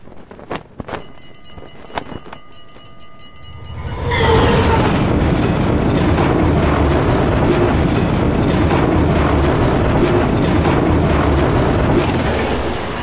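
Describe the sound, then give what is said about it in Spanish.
A steam train passes suddenly, opening with a few sharp clicks before a loud, sustained roar of rumbling and rattling wheels that fills the remaining nine seconds. “El repentino paso del tren me sobresaltó hasta el punto de hacerme brincar hacia atrás, como si quisiera arrastrarme consigo.”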